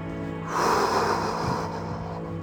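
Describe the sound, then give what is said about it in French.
A deep breath drawn in, one breathy rush of air lasting under a second, with a steady faint tonal hum running underneath. “Allez, on inspire.”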